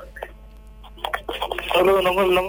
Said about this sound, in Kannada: So ಮತ್ತೊಂದು ಕರೆ ಬರ್ತಾ ಇದೆ, ನೋಡೋಣ.